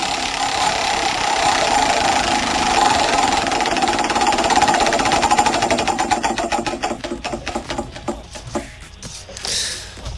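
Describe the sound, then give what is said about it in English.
A prize wheel spins at a cash giveaway, with a loud, rapid ratcheting clatter that spreads into slower, separate clicks as it winds down near the end, over a steady background hum. “let's spin the wheel for you. Let's see how much cash we can give you, courtesy of Empress Palace.”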